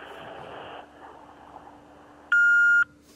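An answering machine beep sounds before a message is left: one loud, steady electronic tone lasting about half a second. It follows a stretch of low, muffled noise and is followed by a brief faint sound.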